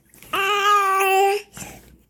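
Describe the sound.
A fussy toddler girl gives a sustained, steady-pitched whiny vocal sound lasting about a second, then a brief, softer babble.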